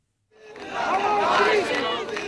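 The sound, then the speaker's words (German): Crowds of people in Pakistani cities cheer and shout together, celebrating the opposition's victory in a power struggle with the government. A loud mass of overlapping voices rises in after a short silence and carries on at full strength. “Jubelszenen und Siegesposen heute Morgen in vielen Städten Pakistans.”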